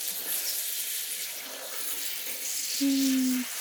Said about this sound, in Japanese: もうちょっとかな。髪の生え際まで流して、軽く油を流しておかないといけませんからね。